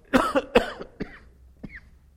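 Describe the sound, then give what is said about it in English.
A few short, throaty coughs, with the first ones strongest and the later ones growing quieter. The coughs are heard on their own, without talk. “Where is that cough drop when I need it?”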